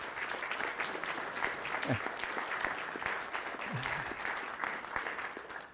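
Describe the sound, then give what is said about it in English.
Congregation applause at a church service honours a member's quiet, unselfish community work. Sustained, steady clapping fills the whole stretch, with brief voices mixed in. “Yes, and you know what? We should applaud.”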